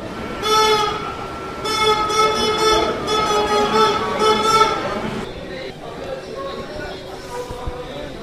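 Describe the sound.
Passenger train carriage travelling through Belgium near Liège, a steady rolling rumble running beneath voices and tonal sounds that carry over it, then quieting in the last few seconds.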